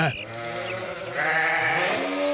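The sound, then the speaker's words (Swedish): A sheep bleats in one long, wavering, nasal cry with a buzzing quality, held for about two seconds and slightly louder toward the end. “Alla som har hört får någon gång vet ju att de bär på ett ganska brett ä. Bä.”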